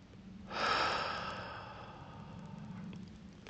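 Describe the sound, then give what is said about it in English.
One deep, slow breath drawn in during a guided breathing exercise, a soft airy rush that swells quickly, then tapers off gradually over a couple of seconds, quiet and alone. “I invite you to take in some nice, full, deep breaths. Breathe here.”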